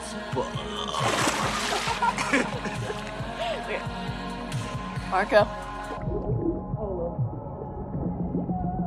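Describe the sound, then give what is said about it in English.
Water splashes as someone is dunked underwater in a pool, a brief noisy surge heard early on beneath voices and music. “He turns around and dunks her underwater.”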